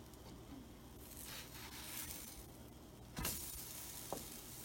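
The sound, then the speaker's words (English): Faint, steady sizzling of a hot frying pan as a spatula is used in it, a soft crackling hiss with a brief scrape near the end. “Ouch, it's really hot. I don't think that's going to work. I could use some help. I wonder if this spatula will help.”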